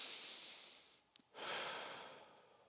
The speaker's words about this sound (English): One, two, three, nice deep breath.